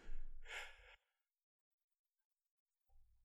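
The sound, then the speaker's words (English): A single sneeze: a brief breathy intake swells into a sharp, bright burst, then the sound cuts to silence before a faint noise returns at the very end. “What was that? I sneezed.”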